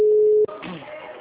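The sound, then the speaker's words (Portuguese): A steady, single-pitched telephone tone sounds while a bank call-centre call is being transferred, holding for about half a second before cutting off abruptly, followed by faint voice-like sound on the line. “Sim, só um minutinho que eu vou transferir a ligação pra ele, tá?”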